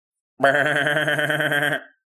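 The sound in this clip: A person imitates a sheep, giving one loud, sustained bleat with a wavering, quavering tone that lasts over a second before trailing off into silence.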